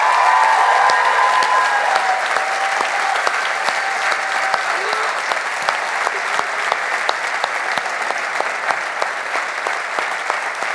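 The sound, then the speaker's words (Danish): A live audience bursts into a big round of applause for a storyteller on stage, with thick, even clapping that carries on steadily for about ten seconds. “vi bliver simpelthen nødt til lige at give et kæmpe bifald til Peter for den fucking historie.”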